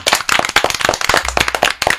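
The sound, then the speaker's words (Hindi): Loud, dense applause of sharp hand claps in many irregular bursts, continuing without pause for about two seconds. “तो एक बार फिर से जोरदार तालियां सबके लिए।”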